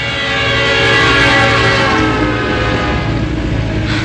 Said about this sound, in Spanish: Tenías que haberle dicho que llegaba el tren.